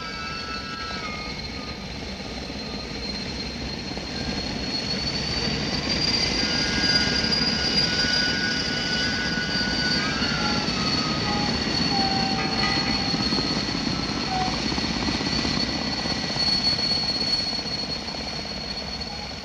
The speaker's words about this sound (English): It was only then I heard the screaming superchargers, and as they died away